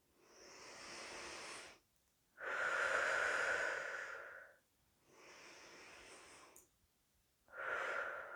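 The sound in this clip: Slow, deep breathing during a seated breathing exercise, with long airy hissing breaths in and out. Four breaths are heard with short pauses between them, and the last is cut short.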